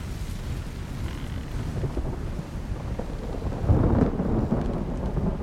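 A thunderstorm with wind and lightning roars as a steady, dense wash of rain and wind noise over low rumbling thunder, swelling louder shortly before the end.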